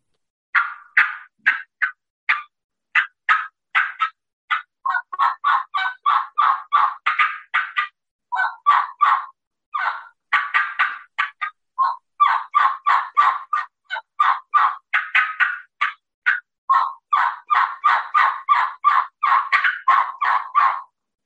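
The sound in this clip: A turkey hunting call demonstrated to lure a gobbler. Many short, sharp yelping notes come in quick rhythmic runs with brief pauses between them, and the notes sound clear and fairly loud on their own.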